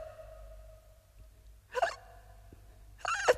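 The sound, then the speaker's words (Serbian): Two sharp hiccups, well spaced, from a boy gulping food in big, unchewed bites. Each is a brief, loud, throaty catch over a low, steady hum. “Opet štucaš.”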